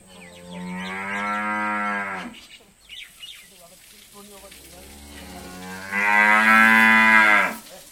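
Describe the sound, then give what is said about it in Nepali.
Cattle lowing in a cowshed that holds 35 cows: two long, loud, deep moos, one at the start and one near the end, with quieter, lower lowing between them. “गोठमा 35 गाई छन्। तीमध्ये आधा जति दुहुना हुन्।”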